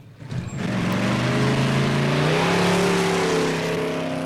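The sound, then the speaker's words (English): A silver-grey coupe accelerates hard away down the road, its engine a loud, sustained roar whose tone climbs steadily as it speeds off. “Moments later, Buddy and Trelawney do the same, then tear off down the road in their silver-grey coupe”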